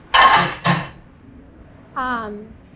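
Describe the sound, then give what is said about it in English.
A hot metal pan set down on a stainless steel kitchen counter gives two quick, bright clattering clanks close together, followed by a short burst of voice. “I just put my hot pan down on here and nothing is gonna come of it.”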